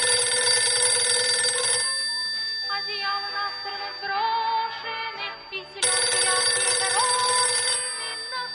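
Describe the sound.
A telephone rings in two long, loud bursts of bright, rapid ringing, separated by a quieter pause of a few seconds.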